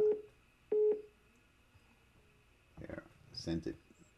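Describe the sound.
Two short electronic beeps at a steady pitch from a phone as an incoming call is sent to voicemail, followed by faint murmured speech.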